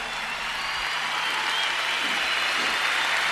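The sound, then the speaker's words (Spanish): Dense, steady applause from a crowd honouring everyone who took part, a loud continuous wash of clapping with no single voice standing out. “Un fuerte aplauso a toda la gente que participó.”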